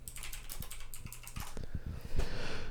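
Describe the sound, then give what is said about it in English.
Typing a search on a computer keyboard produces many quick, irregular key clicks that run throughout and grow louder near the end. “Riga is what he typed in, I think. Typed in popular Latvian beer.”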